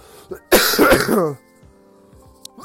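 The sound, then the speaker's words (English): A cough mixed with throat clearing from someone still getting over a lingering cough: one harsh, rough burst lasting under a second, loud against a quiet background, with a brief small sound just before and faint noises after. “excuse me guys, I'm so sorry. I'm still working through this cough.”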